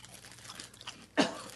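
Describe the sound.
A single crisp crunch of someone biting into pumpkin, onion and burdock, a sharp bite near the end after a quiet stretch.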